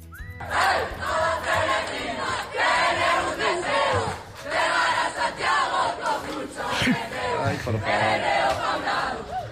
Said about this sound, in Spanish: Llega una cuadrilla cantando, parece que van perreando. Sí, sí, sí. Toda la calle suya. Ay, madre mía. Bueno, pues sonido real de un grupo de jóvenes peregrinos culminando ya el viaje.